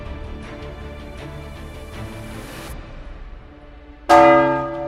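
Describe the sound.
Church bells ring in the north tower of a church: a sustained, layered hum of bell tones, then one loud bell strike near the end that rings out brightly and slowly decays.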